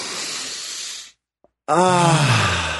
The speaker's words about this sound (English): So let's just take one breath.